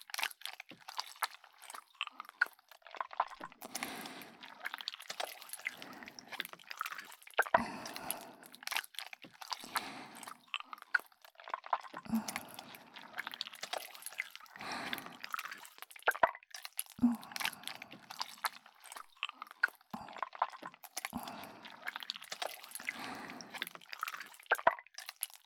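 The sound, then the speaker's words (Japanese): Various kinds of slime squished for ASMR: many soft, wet squelches and sticky crackles in close, irregular bursts, with no talking. “いろんな種類のスライムを使ってあなたのお耳を癒してあげます。”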